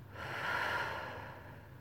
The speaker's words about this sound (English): Can you feel my calm breath on your neck? Should I breathe with me? In and out.